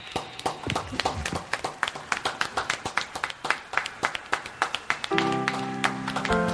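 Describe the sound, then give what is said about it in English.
Audience applauding at a concert: many distinct, crisp claps in a sparse, irregular patter, then sustained musical tones swell in near the end. “Oh, everyone applaud in here.”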